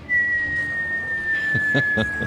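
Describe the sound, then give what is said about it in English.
A whistled imitation of a slow slide whistle: a single thin, steady tone that glides gradually downward in pitch for the whole clip, moderately loud and unbroken. “Just a little penny whistle going. Okay. Just a slide whistle. A real slow slide whistle.”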